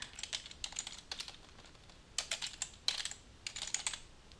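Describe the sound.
Quiet clicking of typing on a computer keyboard, entering words into a search tool: quick bursts of keystrokes separated by short pauses, with the sharp taps coming in uneven clusters.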